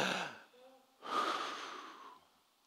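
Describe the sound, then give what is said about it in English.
A deep breath taken together during a church service: a breathy inhale, a brief pause, then a longer, stronger exhale that fades out. The sound is faint throughout. “Take a deep breath. Deep breath, ready?”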